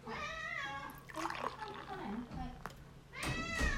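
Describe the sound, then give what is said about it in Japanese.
A cat meows a few times, faint and quiet, among people talking close by. “猫はニャーニャー言ってるけど別に外に出してくれてるわけじゃなかった”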